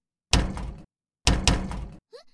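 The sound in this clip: A hotel room door is pushed twice against a malfunctioning auto-lock without opening. Each push gives a dense rattling thud lasting about half a second, with a brief pause between them.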